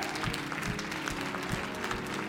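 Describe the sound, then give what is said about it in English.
An audience applauds at a religious celebration, with steady, dense clapping that holds at an even level throughout without pauses. “So can we give a round of applause for Jesus today?”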